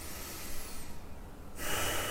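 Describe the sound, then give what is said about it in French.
Slow exhaling breath during a relaxation exercise, a soft, steady airy rush heard alone that grows noticeably louder toward the end. “Vous soufflez et en même temps que vous soufflez,”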